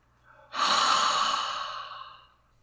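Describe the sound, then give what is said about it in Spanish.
One long exhalation through the mouth during a guided breathing exercise. The breath rises quickly into a steady, airy rush and then slowly fades out. “Y exhalamos por la boca.”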